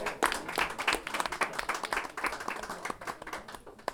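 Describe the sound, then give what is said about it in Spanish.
Audience applause at a live event of improvised verse and poetry: many dense hand claps in a steady, busy patter, moderately loud throughout and easing slightly toward the end. “Aplauso a Catalina.”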